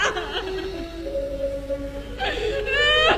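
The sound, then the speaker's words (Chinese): A child crying in a stage opera scene: wavering, sobbing cries with breathy pulses, rising into a faster run of broken sobs at the end. “你不要哭了”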